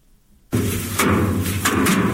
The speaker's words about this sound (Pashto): د کندهار په ډنډ ولسوالۍ کې کروندګر خپل راټول سوي د ریحانو حاصلات ټکوي تر څو ریحان له بوټو جلا کړي